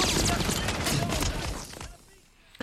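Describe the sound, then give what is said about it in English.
Gunfire crackles through a war film battle scene, a dense, loud barrage of overlapping shots and noisy bursts that keeps up before thinning out abruptly near the end. “Just the way they do the audio, those bullets, feel like they're whipping past your very ear”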